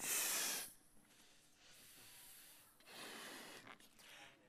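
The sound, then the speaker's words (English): Labored breathing through the nose by a person struggling for air, opening with a forceful hiss and followed by softer, drawn-out breathy exhalations. “struggling to breathe through my nose. Lots of hot air.”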